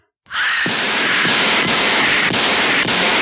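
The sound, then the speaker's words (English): Gunshots from the trailer for the 1981 horror film Halloween II, six shots fired into a figure. Several evenly spaced, punchy reports sound over a loud, continuous hissing backdrop. “I shot him 6 times. I shot him in the heart.”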